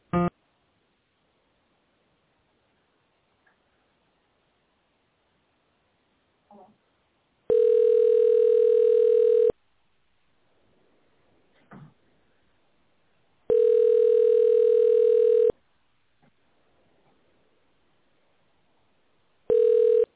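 Ringback tone on a phone line while a business call is transferred: a brief burst at the start, then two long steady beeps of about two seconds each with long silent gaps between them, and a third beep beginning at the end.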